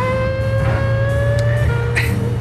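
An old Fiat Stilo car's engine gives a loud, steady droning hum with strong tonal harmonics. The pitch holds mostly level, then dips slightly near the end, with a few brief clicks over the drone.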